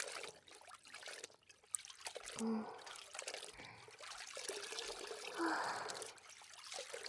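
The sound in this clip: Sea water trickles and laps softly around someone floating in the sea in a swim ring, a quiet, irregular wash of small splashes that continues throughout.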